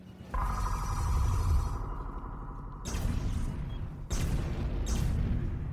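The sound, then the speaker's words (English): Explosions of spaceships in a science-fiction audio drama: three abrupt, roaring blasts, each bursting in suddenly and sustaining as a loud, dense rumble. “The three murder ships have exploded, man! Look at that blown up, man.”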